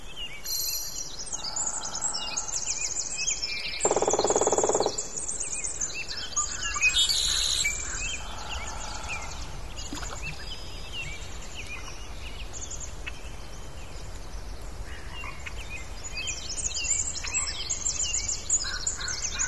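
Birds call in the wild in a very quiet natural setting. Scattered chirps and brief tonal calls rise now and then over a soft, steady hiss, with no voices.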